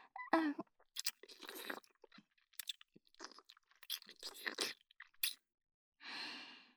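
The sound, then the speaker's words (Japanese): Close, wet licking sounds with small slurps and lip smacks come in many short, irregular bursts, fairly faint, with a brief pause before a last softer, breathy burst. “舐めても舐めても新しいお汁が、味がして、おいしい。”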